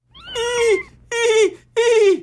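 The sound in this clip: Three drawn-out meows from a palace cat, each a clear, fairly loud harmonic call that falls in pitch at its end, separated by short pauses with no other sound.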